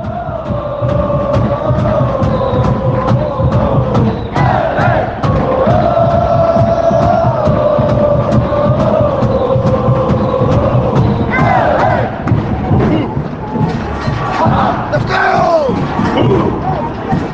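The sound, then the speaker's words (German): Football fans chant together at an MLS match between LAFC and the Seattle Sounders, a loud, continuous sung chorus from a large stadium crowd with sustained tones and a steady underlying rumble of voices. “Und mit diesem schönen Fangesang aus dem Spiel LAFC Seattle Sounders, welche übrigens von Vincent kommen, begrüße ich euch hier zu einer weiteren Folge auf meinsportpodcast.de.”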